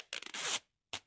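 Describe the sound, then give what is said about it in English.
Packing tape rips off the roll to seal a cardboard box packed with donated bras: a raspy, zipper-like tear of about half a second, then a brief pause and one short, sharp second pull. “That's the sound of one of countless boxes packed full of bras being taped up,”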